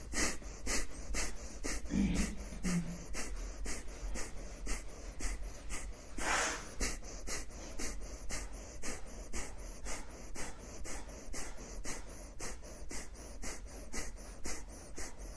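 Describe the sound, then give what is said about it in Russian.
Rapid, forceful kapalabhati yoga breathing: many sharp, puffing exhalations through the nose in a steady, fast rhythm of about two to three per second, continuing without a break and without talk. “Начали капалабхати дышать, поехали, дышим минуту.”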